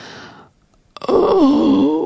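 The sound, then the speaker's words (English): A woman's deep groan aboard a ship begins after a soft rush of noise and a brief pause. It is one long, loud, wavering moan whose pitch dips and rises as it is held. “In the silence that has fallen upon the ship, the groaning becomes audible. A deep groan. A woman's voice.”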